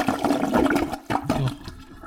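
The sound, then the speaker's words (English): A toilet flushes in a short burst of rushing, gurgling water that breaks off briefly, then surges and swirls again before settling. “Listening to toilet flushing sound effects, you realize how much flushing a toilet sounds like diarrhea.”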